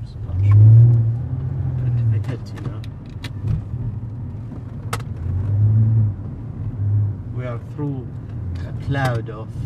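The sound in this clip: A car engine drones low and steady as the vehicle drives through a tear gas cloud during rioting with Molotov cocktails. The rumble swells and eases, and voices talk over it in the later part.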